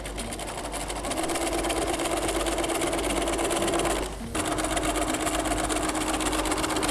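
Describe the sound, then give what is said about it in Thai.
A sewing machine stitches through folded, pressed fabric with a steady, fast mechanical whir. The motor stops briefly about two-thirds of the way through, then starts running again. “อันนี้คือคุณครูรีดไว้เสร็จละนะคะซึ่งขนาดเท่ากันนะพอพับแล้วก็จะเป็นแบบนี้เราจะได้เล็กขึ้นเราก็เริ่มเย็บนะคะ”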